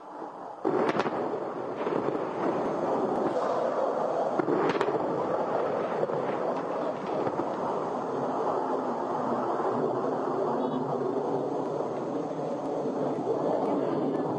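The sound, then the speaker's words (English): An Israeli airstrike near the border, less than half a mile away, with aircraft overhead: a few sharp blasts early on, then a loud, continuous broad roar of engine noise that holds steady to the end. “You can hear the aircraft overhead right now. Tremendously powerful blast, less than half a mile from our position here on the Israeli side of the border.”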